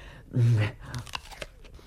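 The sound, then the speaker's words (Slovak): Someone tastes fruit offered for sale, with one quiet bite and crunch followed by a few soft, wet chewing sounds, all brief and close. “Ochutnaj aspoň toto jedno, aby si videl, čo kupuješ. Ďakujem, ochutnám.”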